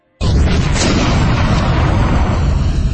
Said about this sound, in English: The blast was so cataclysmic, the rock beneath my feet shot into the wall behind me.